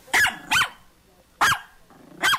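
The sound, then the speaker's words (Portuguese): A small dog barking: four sharp, high-pitched, loud yaps at irregular intervals, alone. “O cachorrinho do Roberto de Madame Jolie.”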